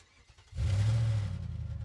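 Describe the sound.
A car engine revving in a garage, on a car with a suspected belt fault. After a quiet start it surges up into a loud, steady engine hum that wavers slightly as it holds.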